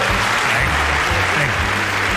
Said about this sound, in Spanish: Que nunca me han aplaudido tanto. Y he dicho, pues ya que tengo aquí el maquinillo, le voy a dar otro.